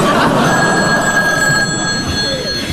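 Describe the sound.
A telephone rings in a steady, continuous high trill that runs through the whole clip without a break, over a low background rumble.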